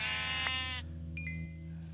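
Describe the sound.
A single sheep bleat from a Minecraft video game: a wavering, nasal tone lasting under a second over a steady low hum, with no talk.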